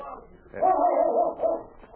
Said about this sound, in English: Say, look at that Malamute. He's a beauty. Just what we need.